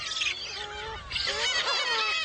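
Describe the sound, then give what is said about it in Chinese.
Bird chicks squabble noisily over food, with overlapping harsh squawks and honking calls in a fairly faint, continuous clamor. “雏鸟们为争抢食物开始了吵闹”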